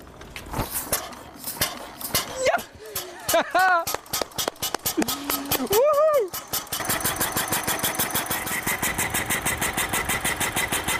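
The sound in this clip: Old car engine being started without a simple key turn: scattered clanks and brief voices come first, then the engine catches and settles into a steady, rapid, even chugging that runs to the end.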